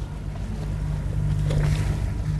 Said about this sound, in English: We're zipping out on the Mississippi Sound in a 24-foot skiff.